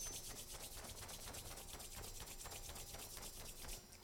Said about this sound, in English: Rub the hands together, the heart center.